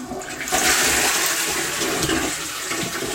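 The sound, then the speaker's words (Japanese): Toilet flushing with a loud, steady rush of water that swells early and holds for about three seconds, with no talk over it. “ちょっとトイレの水を流すので、ちょっと音量注意で多分うるさいと思うので、すいません、流します。”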